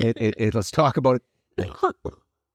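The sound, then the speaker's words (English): A person coughs in a quick series of short, voiced bursts, then after a brief pause coughs a couple more times, fairly close and clear, with no other sound around it. “Now that you're done coughing”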